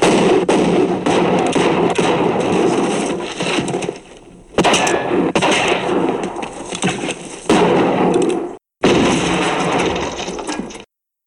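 Gunshots fired in several long, dense bursts of rapid, loud cracking that run almost without a break, split by a few short pauses, with no voices.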